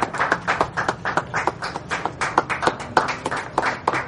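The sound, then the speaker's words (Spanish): Classmates applaud emotionally by the scaffolding where a student studies, producing a dense, irregular patter of many overlapping hand claps that continues steadily throughout. “Su padre llega hasta allí y los compañeros le aplauden emocionados.”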